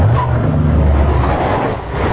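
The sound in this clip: A car on a drive to the airport comes to a stop. Its engine gives a steady, low, loud rumble that eases slightly toward the end.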